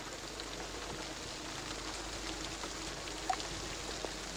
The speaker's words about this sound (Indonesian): Di tengah perjalanan, tiba-tiba hujan turun.